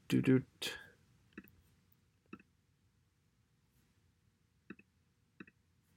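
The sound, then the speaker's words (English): Computer mouse clicking to start a video: four short, sharp clicks spaced well apart, some doubled, following brief talk at the start. “I'm gonna just click play to check. So sorry if you hear any noise from this.”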